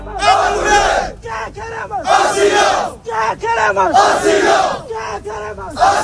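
Hundreds of migrants chant at a makeshift beach camp of improvised shacks in Ceuta, on hunger strike to demand asylum. Loud, rhythmic group chanting repeats in long phrases separated by shorter shouted bursts.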